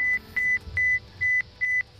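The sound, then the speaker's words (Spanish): Alarms go off aboard a space station during an air leak: a steady string of short, high electronic beeps repeats at an even pace, with low background noise between the tones. “Mientras los de la misión rusa se encargaban de reparar una fuga de aire, saltaron las alarmas.”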